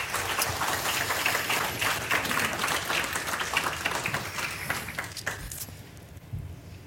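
Audience applause welcomes a team as they walk onto a stage at a morning gathering: dense, steady clapping from many hands that holds level and then thins out and fades near the end.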